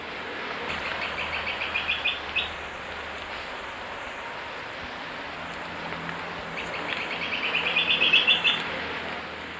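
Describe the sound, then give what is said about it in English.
Olive-backed woodcreeper calling in two bursts of rapid, high, rattling notes separated by a long pause. Each series builds in loudness over a constant background hiss. “Olive-backed wood creeper.”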